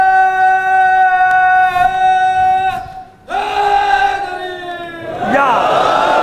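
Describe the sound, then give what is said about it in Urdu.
A crowd shouts a religious slogan. Several loud, long-held shouted calls follow one another, each drawn out on steady sustained tones. “اب لگائے وہ بھائی میرا نعرہ جو پہلا لگا رہا تھا، جس کی آواز دب گئی۔”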